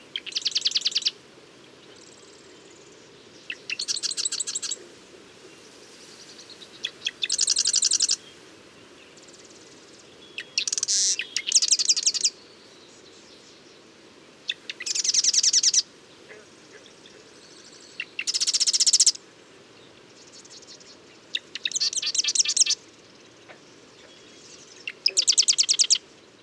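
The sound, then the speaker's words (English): A male marsh wren sings in British Columbia, Canada: a series of short, buzzy, high-pitched song bursts, each a second or two long, separated by brief pauses over a steady low background hum. “The male marsh wren cycles through his many songs with brief pauses between each. Here's a marsh wren singing in British Columbia, Canada.”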